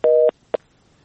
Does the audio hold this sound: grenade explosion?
no